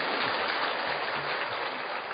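Applause from an audience in a lecture hall: a steady, dense patter of clapping that holds at an even level throughout, with no voices over it.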